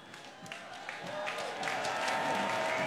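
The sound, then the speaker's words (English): Audience applause rises for a performer and choir at a Prince tribute event: dense, steady clapping that starts fairly soft and gradually swells louder over a few seconds. “Let's give Thomasina a bigger hand than that. Let's give the Prince Sing-Along Choir a hand.”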